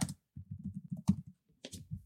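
Typing on a computer keyboard: quiet, rapid keystrokes come in irregular bursts with brief pauses between them and no talk.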